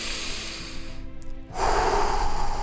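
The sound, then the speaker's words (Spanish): A deep inhale through the nose, taken as a calming breathing exercise against anxiety: a steady breathy hiss, a brief dip, then a fuller, louder rush of airflow that continues to the end. “Aprende a respirar correctamente. ¿Sabes qué pasa? La respiración es una de las cosas más importantes que podemos hacer por nuestro cuerpo. Inhala profundo por la nariz”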